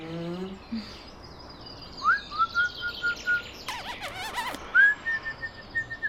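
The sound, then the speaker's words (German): Birds chirp in a park: thin, high whistled calls and quick tweets that slide in pitch, with a busy burst of twittering midway over faint background noise. “Dass es hier so viele Vögel gibt, finde ich schön. Es war gut, dass wir uns eine Wohnung im Park genommen haben.”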